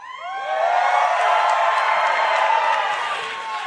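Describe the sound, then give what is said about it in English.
A crowd cheers and whoops at a Nikki Haley campaign rally in New Hampshire, a steady, loud roar of mixed voices that swells and holds throughout. “That's the sound of a two-person race. It's former Ambassador, former Governor Nikki Haley at a rally in New Hampshire Sunday”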